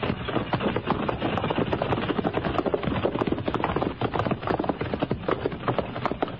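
Horses' hooves clatter as cavalry riders ride out, a dense, steady drumming of many hoofbeats that continues throughout with no voices.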